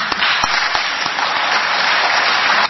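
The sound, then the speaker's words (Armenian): Sustained applause from parliament deputies standing up to clap, a dense, even wash of many hands with a few sharper claps standing out, loud and steady throughout without talk. “Հայաստան Դաշինքի 2 բացակա պատգամավորների անունները հնչելիս խմբակցության պատգամավորները ոտքի կանգնեցին ու ծափահարեցին։”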